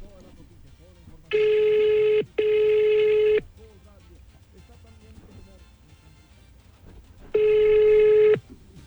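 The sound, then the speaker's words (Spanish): Telephone call being placed, heard as ringback tones after the number is dialed: three long, steady buzzing tones. The first two come close together, and the third follows after a long pause over faint background noise. “Entonces, me vas a regalar un minutico para marcar.”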